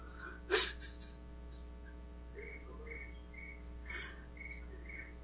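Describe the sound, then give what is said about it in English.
Crickets chirp faintly in short, high, evenly spaced pulses over a low steady hum. One louder sharp click comes near the start. “we were talking about crickets, didn't we?”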